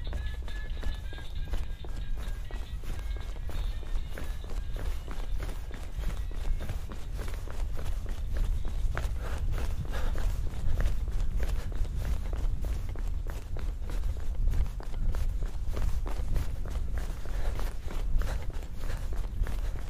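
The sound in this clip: Footsteps of someone running away, many quick steady steps over a low rumble, holding an even loudness throughout.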